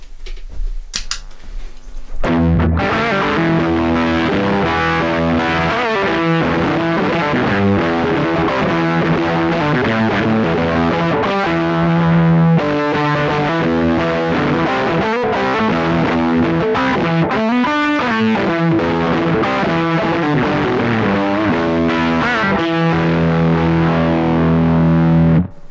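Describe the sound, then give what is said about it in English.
An electric guitar plays through a Tone Bender fuzz pedal with three germanium transistors, giving a loud, heavily distorted tone. Notes and chords ring out continuously after a brief opening burst. “So this is the Tone Bender. So this is the one that has three germanium transistors in it.”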